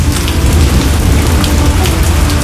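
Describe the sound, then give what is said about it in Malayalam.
Steady rain pours down onto a surface in a dense, continuous hiss with a soft low rumble underneath. The downpour holds even in loudness throughout, with no voices. “എന്ത് എന്നാലോചിച്ചിരിക്കുമ്പോഴാണ് വിശേഷങ്ങളുമായി മഴ എത്തിയത്. അപ്പോൾ ഇന്നത്തെ വിശേഷം മഴ തന്നെ.”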